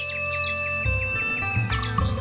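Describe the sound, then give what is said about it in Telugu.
Bright birdsong credited to a nightingale singing for an emperor: quick, repeated chirping sweeps trill over a steady musical backing, with the accompaniment shifting lower partway through. “వెంటనే ఆ నైటింగేల్ని తన దగ్గరికి తీసుకుని రమ్మని చక్రవర్తి ఆదేశించాడు. ఎంత చిన్న పక్షికి ఎంతో అద్భుతమైన స్వరం ఉంది. అద్భుతంగా పాడుతున్నావు.”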